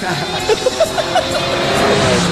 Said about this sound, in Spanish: Ahí lo pasó un auto al bondi.